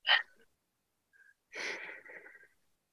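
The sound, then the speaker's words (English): A person takes a deep breath: a sharp breathy intake, a short pause, then a longer airy breath of about a second that trails off softly. No one speaks during it. “So I'm just going to take a deep breath”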